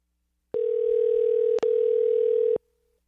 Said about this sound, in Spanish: Ahí ya están llamando. A ver.